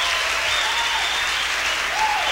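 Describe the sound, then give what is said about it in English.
A concert audience gives the band's producer a round of applause. The clapping is steady and full, continuing evenly through the whole two-second stretch with no voices on top. “This is my producer, Mr. Al Jackson Jr. Let's give him a big round of applause.”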